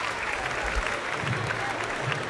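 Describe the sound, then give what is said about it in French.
Applause from a concert audience as a singer is brought on stage: dense, steady clapping that fills the whole clip without a break. “Et avec moi, ici, s'il vous plaît, applaudissements.”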